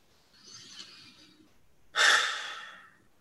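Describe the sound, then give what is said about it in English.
A slow, soft breath is drawn in through the nose, followed after a brief pause by a louder, relaxed exhale through the mouth. The outward breath starts strong and fades gradually, with no talking. “pause for a moment, and then just take a nice slow inhale through the nose and relax out through the mouth.”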